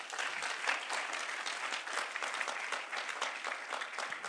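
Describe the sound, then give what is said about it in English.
Audience applause at a church service: a steady, dense clapping that holds at an even level throughout, without breaks or voices. “Let's put our hands together.”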